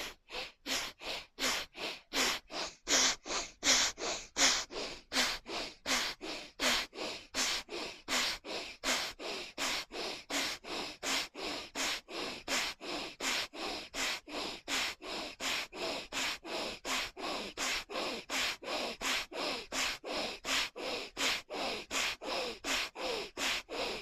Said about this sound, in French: Donc une fois assis confortablement, viens avec n'importe quel doigt fermer la narine droite. Et de manière assez puissante, tu commences, expire, inspire, expire, inspire.